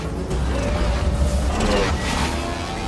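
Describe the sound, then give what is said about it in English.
Bikes shifting into gear and racing over a dune, with a low engine roar and rumble swelling slightly in the middle, and airy whooshing layered on top. “Putting their bikes into gear, they rocket over the dune.”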